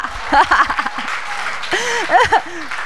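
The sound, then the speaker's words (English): A church audience applauds for Jesus during a sermon, with loud, sustained clapping and cheerful voices calling out over it. “Let's give Jesus a hand.”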